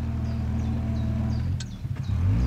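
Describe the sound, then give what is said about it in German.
Engine of an approaching Pierce-Arrow automobile: a steady low throbbing drone with a couple of brief clicks midway, swelling louder toward the end. “Ein Pierce Arrow. Schöner Wagen. Ich habe selber einen zu Hause in New York. Das Automobil kommt näher.”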